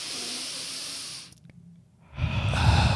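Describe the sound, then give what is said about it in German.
A deep breath drawn in through the nose as part of a slow breathing exercise against nausea, in an ASMR setting. A long, airy inhale lasts about a second, then a pause, then a louder breathy rush. “wenn einem übel ist, musst du halt ganz tief durch die Nase einatmen, ungefähr so.”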